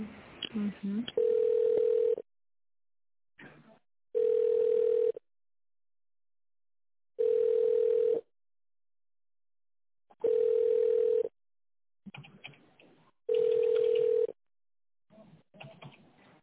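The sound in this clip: Telephone line tones play while a call is being transferred: five evenly spaced, steady mid-pitched tones, each about a second long with longer silent gaps between them, and brief muffled sounds in some of the gaps.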